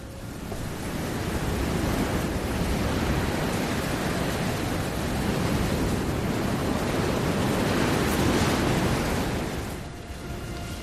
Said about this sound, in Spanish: Ahora seguimos con la ventana de par en par, pero el aire no suena, solo el viento. El viento desnudo y sin bridas.